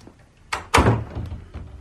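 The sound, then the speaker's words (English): A door is shut with a short knock, then quickly a heavier thump that rings down briefly, followed by faint low background noise. “No, come in. Shut the door.”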